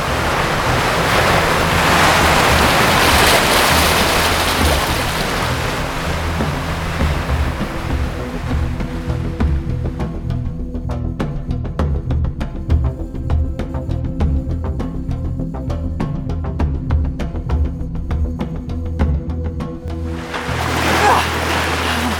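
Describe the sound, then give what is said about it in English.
Ocean surf breaks near rocks in a broad, roaring wash for about nine seconds, then settles into a quieter rumble with crackling spray before another surge rises at the end. “Swim out under the next wave!”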